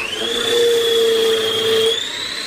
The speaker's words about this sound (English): It's just a little Kenwood food processor that has the little citrus juicer attached, but it just means you get plenty of juice out when you need it.